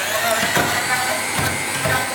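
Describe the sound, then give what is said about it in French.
Immersion blender whirring as it mixes garlic, lemon juice, sunflower oil and a pinch of salt, a steady motor drone with grinding texture that continues without pause for the whole clip. “Donc là tu utilises un pied à soupe comme ça tout le monde peut le faire à la maison avec ce qu'il a sous la main.”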